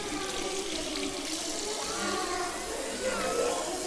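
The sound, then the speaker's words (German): Hands are washed under a running tap, and the water rushes in a steady, even splash that never stops or changes much. “Hände waschen nicht vergessen.”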